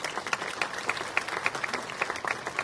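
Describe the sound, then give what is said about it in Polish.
Audience applause fills the hall at an award ceremony honoring a district official. It is dense, continuous clapping from a large crowd at steady loudness, with sharper individual claps popping through. “Jeszcze raz wielkie, wielkie brawa.”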